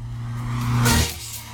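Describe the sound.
A car drives past. Its engine and tyre noise swell to a loud peak near the middle, then fade away, with no talk.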